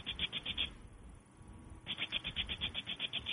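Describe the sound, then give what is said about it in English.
A voice imitates a Rain Bird garden sprinkler that runs on water pressure. It makes a quick run of crisp, hissy ticking pulses, pauses briefly, then gives a longer run of the same regular clicks, all fairly soft. “It's a sound of an irrigation piece of equipment that you put in your garden, and it's called a rainbird, and it runs by water pressure, and it's on a spring,”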